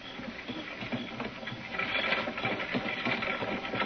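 Engine noise of a vehicle coming by on a road, a continuous mechanical rumble with rattling, whirring texture that grows louder partway through and stays steady to the end.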